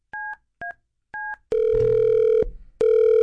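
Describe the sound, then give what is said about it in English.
Telephone tones on an outgoing call: three short two-note beeps, then long, steady, loud ringing tones, with a second ring starting after a brief gap. “Let me see if we can get on this line. Pick up, pick up, pick up!”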